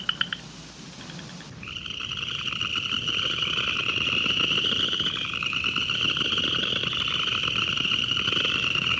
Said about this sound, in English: We are hearing right now. We're hearing a large chorus of upland chorus frogs. At the beginning, it was just two or three calling,